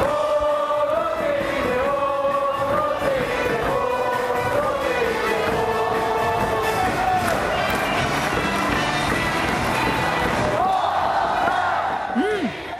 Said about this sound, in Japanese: 比較する対象として、男性ファンが多かった三塁側ロッテ応援席の4番イデホ選手が打席に入った時の応援の様子をお聞きください。